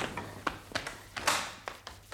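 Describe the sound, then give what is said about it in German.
A door being locked: a quiet sequence of sharp metallic clicks and taps at irregular intervals, with no voices. “Erstmal die Tür abschließen.”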